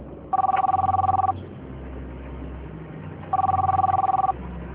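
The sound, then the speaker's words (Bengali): A telephone bell rings in two separate bursts, each about a second of rapid trilling, with a pause of about two seconds between them over a low, steady background. “আমার একটা phone এসছে”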